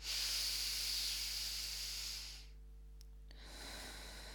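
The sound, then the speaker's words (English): A deep breath drawn in through the nose and released through the mouth during a one-breath meditation: a long, airy hiss, a quiet pause, then a second, softer breath, with a faint steady hum underneath. “take a big deep breath in through the nose and out through the mouth. Okay, here we go.”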